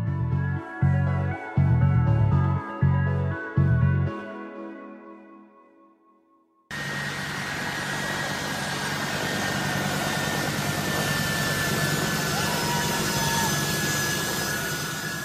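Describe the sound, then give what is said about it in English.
A grey US Air Force military jet at Kabul airport gives off a loud, steady engine roar with a thin high whine running through it, holding level for several seconds. “I'm watching a video filmed on the 16th of August 2021, and it was shot at Kabul airport. In it, you can see a grey American military jet. It's got US Air Force emblazoned across it,”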